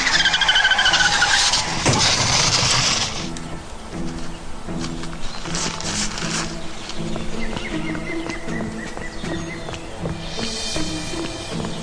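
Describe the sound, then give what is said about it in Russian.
A Zhiguli car swerves sharply on a hill road, its tires skidding in a loud, harsh screech for about three seconds. A quieter stretch follows, with steady rhythmic music underneath. “Водитель заметил скат и резко принял в сторону.”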